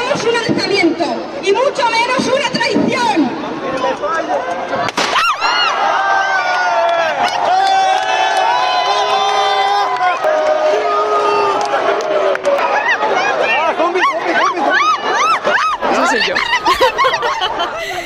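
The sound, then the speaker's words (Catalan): A group of people shouting and cheering together, their excited voices overlapping with laughter and chatter in a dense, continuous crowd roar. “O sigui, l'àudio dura més estona, però és que som nosaltres cridant durant 10 minuts més.”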